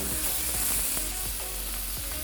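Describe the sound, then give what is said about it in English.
Chicken with prosciutto sears in a hot pan, giving a steady, bright sizzling hiss dotted with small pops and crackles, with no voices over it. “You really want to hear that sizzling sound. Yeah. If you don't hear that sizzle, you're just not getting that colour.”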